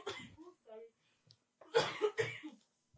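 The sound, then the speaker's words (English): A person gives a short cluster of harsh, dry coughs after a mostly quiet stretch, with brief vocal sounds before them. “really sorry about my cough. I hope you guys do bear with it.”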